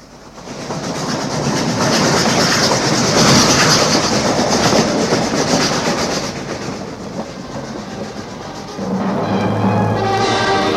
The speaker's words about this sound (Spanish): Bueno, señor juez, que ya viene el tren y tengo que tumbarme en la vía para que me despanzurre.